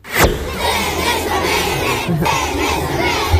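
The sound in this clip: Children shout in a loud crowd around a radio reporter travelling through the Dolenjska region of Slovenia. The shouting and hubbub stay steady and dense throughout, with one sharp cry at the start.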